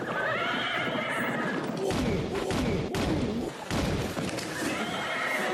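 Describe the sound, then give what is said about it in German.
A horse neighs loudly and at length as a horse-drawn carriage arrives, over a steady clatter of hoof clops and a few dull thumps. “Kutsche ist da.”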